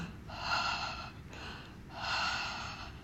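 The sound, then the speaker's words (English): Two long, deep breaths demonstrated as a calming exercise, each a loud airy rush under a second long, separated by a short pause, with no talk. “Show them how to take deep breaths. You demonstrate and hold.”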